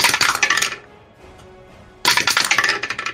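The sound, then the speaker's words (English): Dice rolled for advantage during a tabletop Dungeons & Dragons game: two loud bursts of rattling, clinking clatter separated by a brief quiet pause. “All right, advantage. Let's roll the dice.”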